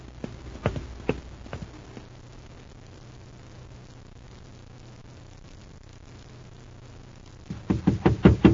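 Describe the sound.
Hurried footsteps of a man coming around a corner: a few sharp steps at first, a quiet stretch, then a quick, loud run of footfalls at the end.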